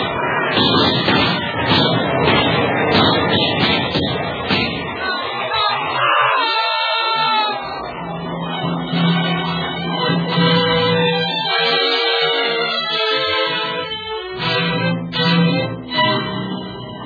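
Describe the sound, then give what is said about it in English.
Soldiers fire a rifle volley, with many loud overlapping cracks and bangs crowding the first seconds, then thinning out under sustained tonal sound. “Now, men, fire. Now, fire.”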